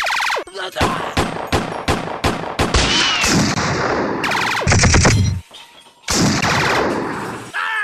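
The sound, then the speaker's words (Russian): Rapid gunfire from a Browning pistol cracks out in many sharp, loud shots in quick succession, forming dense bursts that break off briefly before firing resumes. “тут опять в лапах у него оказался Браунинг, а примус он пристроил между ветвями люстры. Кот прицелился и, летая как маятник над головами пришедших, открыл по ним стрельбу.”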